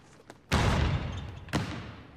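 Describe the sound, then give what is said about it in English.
A basketball hurled hard against a backboard in a gym: two loud slamming thuds about a second apart, each ringing out briefly, with a faint tap just before the first. “With a frustrated expression, he picks up another ball and hurls it at the backboard.”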